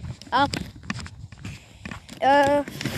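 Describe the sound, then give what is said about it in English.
Footsteps of a person out on a walk, a steady run of soft scuffing steps, with brief voiced sounds rising over them. “Yeah, so I'll be walking again, shorter than my most episodes, because the walk isn't that far, but, you know, still a walk”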